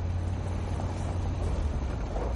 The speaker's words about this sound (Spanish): Tony conduce su coche por un camino entre matorrales.